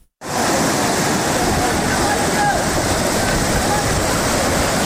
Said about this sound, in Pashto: دا د نړۍ ولسوالۍ او اسدآباد ترمنځ د سونک خوړ دی چې په کې تیر شوی سړک اوبو وړې دی.